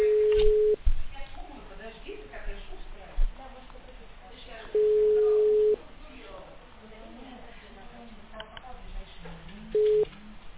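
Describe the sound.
Telephone ringback tone while a call to a patient is being connected: three steady, mid-pitched tones about four seconds apart, the last cut short, with faint muffled noise in the gaps.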